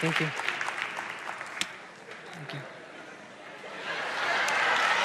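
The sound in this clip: Audience applause after a group presentation: a steady wash of clapping that dips in the middle and swells louder toward the end, with voices mixed in.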